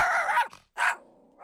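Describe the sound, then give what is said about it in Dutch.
A Chinese Crested dog barks and growls at a microphone in a dog boutique: a longer, rough growling bark, then a short, sharp second bark, followed by near quiet. “Ja, een Chinese naakthond. Hij heeft het niet zo, hè, op microfoons.”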